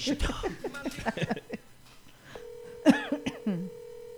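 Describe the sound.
A telephone ringing on a call, heard as a single steady, beep-like tone lasting about a second. People talk and clear their throats before and over it.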